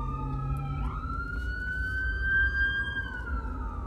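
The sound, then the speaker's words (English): Ambulance and police car sirens passing, two sustained wailing tones sliding up and down against each other over a low background rumble. “Ooh, ambulance, and Popo.”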